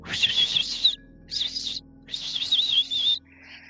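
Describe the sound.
A voice imitates a pet bird perched on a shoulder, giving three bursts of high, warbling chirps and then a short, faint peep.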